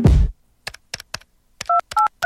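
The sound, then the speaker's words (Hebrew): Telephone keypad dialing sounds: a brief rustling burst, then a few light key clicks, then three short beeps, each with a two-pitched tone and a click, at a quick, even pace. “חייגו כוכבית 3883.”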